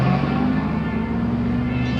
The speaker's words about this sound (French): avec sa femme et leurs deux filles, ils embarquent dans une Volga toute déglinguée. Dans le coffre, on a fourré une vieille machine à laver, direction Leningrad.